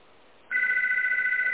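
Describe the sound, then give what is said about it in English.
A phone starts ringing abruptly, its electronic ring a steady, rapidly fluttering trill that continues over a soft background hiss. “Whose phone's ringing? My phone? It's not me. Oh, okay. It's like, I hear a phone ringing.”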